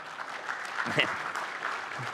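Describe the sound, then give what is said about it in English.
A church audience claps steadily at moderate volume throughout, with a faint voice heard briefly beneath the applause. “some of you may clap. Not everybody.”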